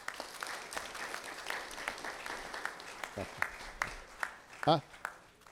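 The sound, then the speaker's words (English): A church audience applauds with steady, dense clapping that fills the whole stretch, while a few voices rise briefly over it. “Would you give these guys a hand?”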